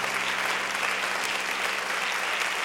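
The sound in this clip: Audience at a women's outreach event applauding to welcome a speaker: steady, dense clapping holds at an even, moderate loudness from start to finish.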